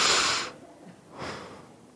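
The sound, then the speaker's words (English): Deep breaths, two breathy rushes of air separated by a short quieter gap, fairly loud and airy, with no talk. “Take a deep breath. Let everybody hear you. Deep breath. I should do it too.”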